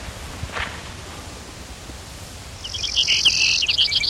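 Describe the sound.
A Brewer's sparrow sings a high, buzzy, rapid trill that begins partway through over a steady background hiss, after one brief faint chirp near the start.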